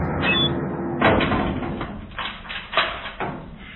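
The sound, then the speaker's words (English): A prison cell door slamming shut: a few heavy, sharp impacts stand out over a continuous low rumble, with the loudest strikes near the middle and end. “that sound is what over 700,000 pot smokers hear each year. The slamming of the cell door.”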